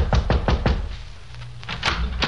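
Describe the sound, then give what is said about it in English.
Knocking on an apartment door on a second floor: four sharp, fairly loud raps in quick succession, a brief pause, then a few more knocks as the knocking is tried again, with no voices. “We went up a flight of carpeted stairs and knocked on the door of 2A. Try it again.”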